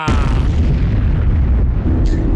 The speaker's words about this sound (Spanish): ¡La bomba!